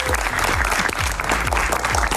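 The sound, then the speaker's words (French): Audience applause at a morning gathering in a town cultural centre, a dense, steady wash of many hands clapping at constant loudness throughout. “Et rien que pour ça, vous pouvez encore vous applaudir, les amis.”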